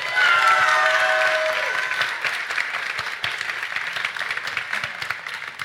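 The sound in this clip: Loud audience applause and cheering at a startup pitch contest, bursting in at full strength and then continuing as a dense, steady clatter of clapping that eases slightly toward the end.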